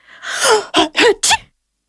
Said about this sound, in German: erst am nächsten Morgen wachte er durch ein kräftiges Niesen auf.